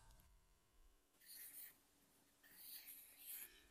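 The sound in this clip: A marker squeaks faintly as it writes on a board. A few short bursts of scratchy, high-pitched strokes are separated by quiet pauses, and the later strokes are slightly louder.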